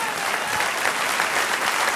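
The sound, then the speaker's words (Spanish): A church audience applauds at a Spanish-language service. The clapping is steady, dense and fairly loud, with no pause through the whole span. “Denle un aplauso”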